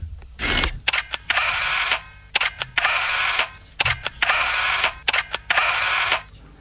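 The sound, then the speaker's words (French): Camera shutter clicks as photographs are taken: several sharp mechanical clicks, each paired with a longer burst of whirring film advance, repeating at irregular intervals with short quiet gaps between them. “J'ai encore pris quatre clichés.”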